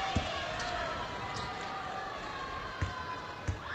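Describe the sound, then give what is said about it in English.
A basketball is dribbled before a free throw, a few sharp, spaced bounces thudding over a steady crowd murmur. “Tilly dribbles and misses the first.”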